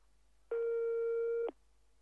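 A telephone ringback tone on an outgoing call sounds once as a steady low-pitched beep lasting about one second, clear and isolated against near silence.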